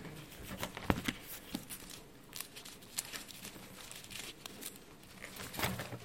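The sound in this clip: Bible pages being turned during a Sunday School class, with many faint papery rustles, crinkles and light flicks coming in an uneven patter.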